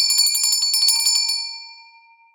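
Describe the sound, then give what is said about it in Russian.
A small silver bell rings in a quick run of bright, high tinkling strokes, then the ringing stops and the tone fades out slowly on its own. “Вдруг зазвенел серебряный колокольчик.”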